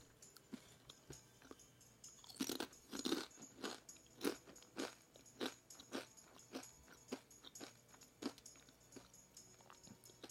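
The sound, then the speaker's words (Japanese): Crunchy triangular orange Dontaco snack chips being eaten: many sharp, quiet crunches and bites come in an irregular run, faint and close. “どんたこを食べてますドンタこスって知ってますか三角のねオレンジ色のお菓子”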